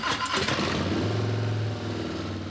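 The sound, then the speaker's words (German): A big-displacement Harley-Davidson V-twin motorcycle engine running with a loud, deep, steady throbbing rumble that lasts throughout without a break. “Was aber, wenn die hubraumstarken Harley V-Motoren eines Tages nicht mehr so klingen,”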